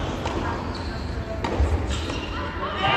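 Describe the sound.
Tennis ball struck in a quick volley exchange during a women's match, ending in a backhand volley: a few sharp, crisp hits ring out over steady background noise and voices.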